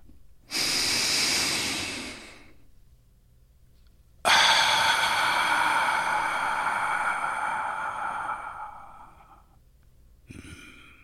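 A deep breath: an airy rush of breathing, then a longer, louder sighing breath that slowly fades, and a brief breath at the end.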